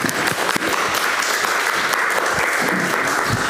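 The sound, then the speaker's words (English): An audience applauds to welcome a speaker about to share a personal testimony. Dense, steady clapping holds at an even loudness throughout. “So please welcome him with our hands.”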